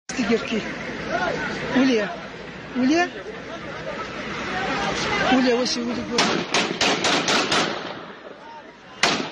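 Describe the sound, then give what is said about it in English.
AK-47 gunfire in a street video from Afghanistan: a sharp, rapid burst of shots breaks out near the end after a stretch of loud crowd chatter and shouting voices. “Walk a guy out into the streets, get your AK-47 out, and shoot him to death.”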